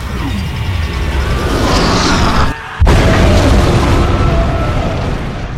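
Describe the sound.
A torpedo explodes against a warship's hull amidships as a massive, loud roaring boom. The dense rumble drops out briefly, then surges back and rolls on steadily.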